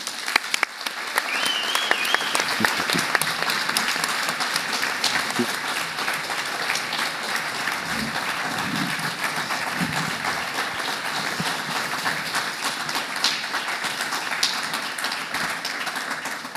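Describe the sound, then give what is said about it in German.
Long, dense audience applause welcoming a guest speaker introduced before a talk on pediatric regional anesthesia. The clapping stays steady and even for about sixteen seconds. “Okay, der Länge des Applauses entnehme ich, dass du hier auch bekannt bist.”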